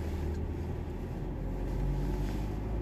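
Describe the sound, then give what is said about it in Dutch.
Car engine running as the car is started, a steady, even low rumble that holds at a constant level from start to finish with no other sounds over it. “Laat me even mijn auto opstarten.”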